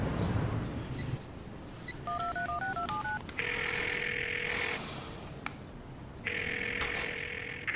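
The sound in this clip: A phone call is dialed as a quick run of stepped keypad tones over faint background noise. Two long, steady electronic ringback tones follow, separated by a pause.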